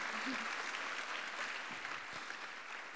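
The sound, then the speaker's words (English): Audience applause welcoming a guest speaker at a church gathering: a steady, even wash of clapping from many hands that holds at a constant level throughout. “can you really put your hands together and welcome Liz as she comes to share with us?”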